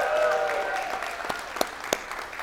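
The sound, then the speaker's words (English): Church audience applauding at a Sunday morning service, a steady wash of clapping with a few sharp accents standing out near the end. “Can we in-house let those watching online know that we love them by making some noise?”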